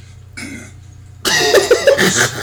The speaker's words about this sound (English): Yo, did you hear that? Clear the throat, clear the throat.